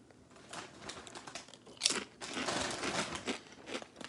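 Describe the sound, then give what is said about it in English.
A bag of sweet potato chips is torn open, making faint crinkling and crumpling plastic rustles in several irregular bursts, with one sharper tearing crackle near the middle. “Here are the chips. Let's open these up.”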